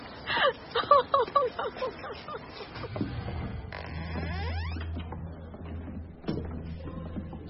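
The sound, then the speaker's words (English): Panicked gasping breaths from a hyperventilating woman: a quick run of sharp, rhythmic gasps in the opening seconds, then quieter, strained breathing with low murmuring sounds. “Miss Mackenzie will need to breathe into a bag now.”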